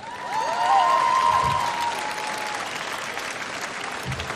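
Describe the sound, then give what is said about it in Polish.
Audience applause at a public event in Gdynia: dense, continuous clapping from a crowd, holding steady for several seconds. “Proszę o oklaski.”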